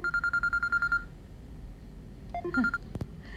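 A telephone rings with a rapid, even run of many high electronic beeps for about a second. After a pause, a short, quieter cluster of mixed tones follows, and a sharp click lands near the end.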